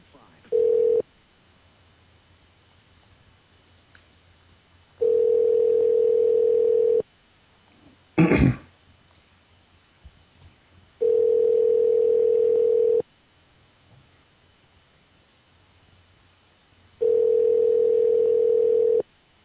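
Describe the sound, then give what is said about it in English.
Telephone ringback tone as a caller is transferred to another extension: four steady mid-pitched tone bursts, each about two seconds long, separated by longer silences, with one brief sharp click between them. “Let me put you through to Dave Marshall. One moment, please.”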